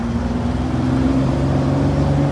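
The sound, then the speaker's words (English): A Porsche car driving down the street, its engine a steady, droning hum with a low, constant tone and no distinct revving. “We have a little video of the Porsche going down the street. It looks so good on the street,”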